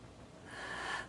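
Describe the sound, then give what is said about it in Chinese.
A deep abdominal inhale in a breathing demonstration: a single faint, airy intake of breath lasting about a second, swelling gently and then easing off, with no talking. “那我要吸气了哦，听清楚，我要吸气了哦，我用腹式呼吸示范嘛。我吸气，有没有？”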